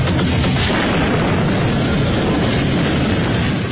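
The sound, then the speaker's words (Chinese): A drug warehouse explosion roars as one loud, dense, continuous rumble of burning blast noise. It runs steadily for nearly four seconds with no break or voices. “突然帕罗蒂引爆了毒品仓库，黑帮分子们全都深陷火海”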